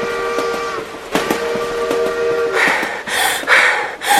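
Train sound effect in an advert: a sustained steam whistle with steady layered tones, broken by a few sharp clanks, then loud bursts of hissing steam.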